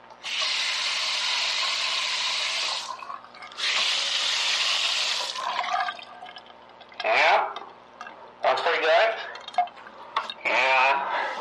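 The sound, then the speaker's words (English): A bathroom faucet runs in two steady bursts of hissing water separated by a brief pause, and then a person talks. “Now for government records, I'm going to test the faucet.”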